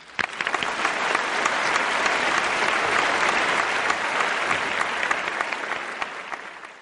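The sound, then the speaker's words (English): Dense audience applause at a climate change event fills the whole stretch, a steady, loud wash of many hands clapping without pause and no voices over it. “Let's give him another round of applause, please.”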